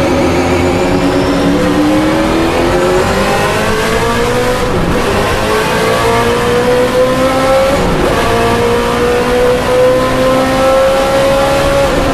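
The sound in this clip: Corvette race car engine at full throttle during a 40-lap race, roaring loudly and continuously as its pitch climbs steadily, with a couple of brief dips like gear shifts along the way.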